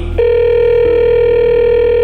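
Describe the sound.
A telephone rings with a loud electronic tone that starts abruptly after a brief moment and then holds as one steady, unbroken buzzing note to the end, with no voices.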